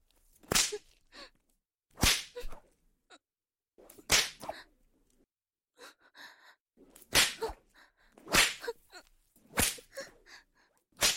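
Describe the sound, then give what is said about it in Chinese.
A whip lashes a captive during a punishing interrogation. Sharp, cracking strokes land again and again at irregular intervals about a second or two apart, with quieter rustles and breaths between them. “但以后嘛，给我用鞭子抽醒他！”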